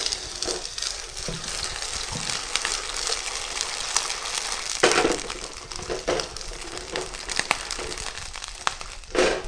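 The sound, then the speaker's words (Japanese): Shell-on clams hitting hot oil in a pan give a continuous crackling sizzle, with sharp pops, spatters and clattering shells breaking through, and a few louder bursts along the way. “アサリを加えるとちょっと跳ねますので気をつけていただいて、心に殻付きのアサリを一度に加えます。”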